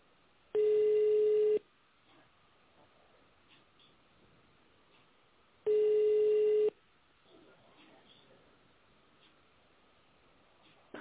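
Telephone ringback tone on a company line while waiting for a secretary to answer: two steady, even beeps of about one second each, roughly five seconds apart, over a faint quiet background.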